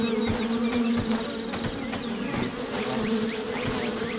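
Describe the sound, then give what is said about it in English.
Bees buzzing somewhere off a path, a dense and continuous hum that holds a steady loudness throughout without clear breaks. “I hear the bees. I don't see them. They must be off the path somewhere.”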